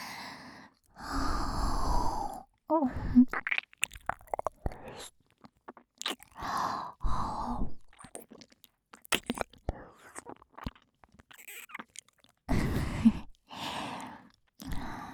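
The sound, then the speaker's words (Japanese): ASMR mouth sounds of nibbling an earlobe: close, wet smacks, soft crunchy bites and clicks scattered irregularly, broken up by several longer breathy, whispery bursts and near-silent gaps. “耳たぶ食べてんの。”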